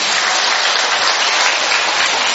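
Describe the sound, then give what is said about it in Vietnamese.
Loud, dense applause from a church audience during a celebration of a patron saint, a continuous wash of many hands clapping at once, steady and unbroken throughout with no voices standing out. “Hay thì cho anh tràng pháo tay nữa.”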